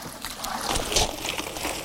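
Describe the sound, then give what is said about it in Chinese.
Water trickles and sloshes as softshell turtle hatchlings are scooped out of a pond, with soft splashing and dribbling at a low, fairly steady level. “依家呢，我哋就捞嗰啲苗出嚟”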